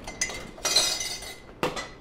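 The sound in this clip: A large plate set down while a dish is being plated, giving a few faint, sharp ceramic clinks and knocks spaced apart, with no talking.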